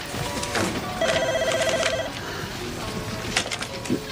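A telephone rings with a single trilling ring about a second long, set among other faint background sounds.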